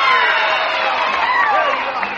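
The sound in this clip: Audience at the Grand Ole Opry cheering for guest stars Lonzo and Oscar: a loud, dense roar of crowd noise with whistles and shouts, sustained without a break.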